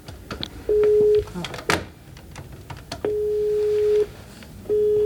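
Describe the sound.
Telephone ringing tones from a call being placed: steady low-pitched beeps, one short, one lasting about a second, and a third cut off, separated by gaps, over busy background noise and faint voices.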